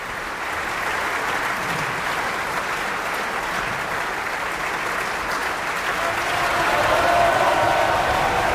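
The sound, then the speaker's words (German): Opera audience applauding a soprano after Wagner's Siegfried at the Bayreuth Festival: sustained, dense clapping that holds steady for several seconds, then swells louder toward the end. “Und sie empfängt jetzt auch den Applaus des Publikums.”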